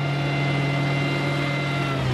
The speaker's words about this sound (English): Today, though, the straining motor belongs to a drilling rig rather than a fighter jet.